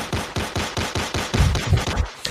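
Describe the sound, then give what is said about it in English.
A gunfire sound effect of rapid automatic fire: about six evenly spaced, sharp shots, then a denser, heavier clatter of overlapping rounds before it cuts off. “Gun sounds.”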